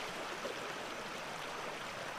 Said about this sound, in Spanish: Supongo que las voces del río eran diferentes antes, aunque no las conocí entonces.